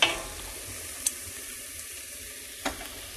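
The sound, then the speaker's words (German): Onions frying in a pan, a soft, steady sizzling hiss with a few brief sharp clicks. “Ja, Zwiebeln gehen an, das dauert einen Augenblick.”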